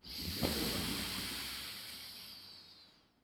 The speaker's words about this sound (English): Let go of the left nostril, press down on the right nostril, breathe out through the left nostril.